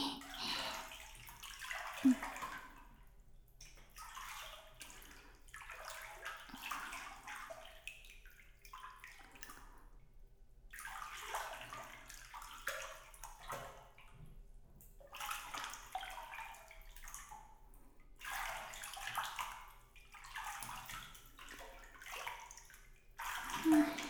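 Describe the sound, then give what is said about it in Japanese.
Bath water sloshes as someone soaks up to the shoulders in a tub of hot water. Soft, irregular lapping and gentle splashes go on throughout at a low level. “最後に肩までお湯に浸かって温まりましょうね。”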